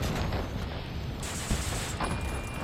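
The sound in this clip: Dense, sustained gunfire from a volley in a dramatized battle scene, a continuous loud roar of overlapping shots with a few sharper reports standing out near the middle and end.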